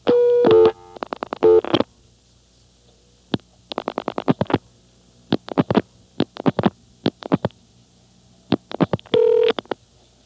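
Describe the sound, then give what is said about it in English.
Touch-tone telephone keypad beeps as a number is dialled for a callback call. Many short DTMF tones come in quick clusters separated by pauses, with a longer steady tone at the start and another near the end. “Number 1011. Now I'm going to call it through callback.”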